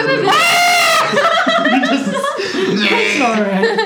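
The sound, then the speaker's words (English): Several people's voices imitate screaming goats, loud bleating wails with shaky, wavering pitch, broken up by chuckling and laughter. “let's all make horrible goat noises for a minute.”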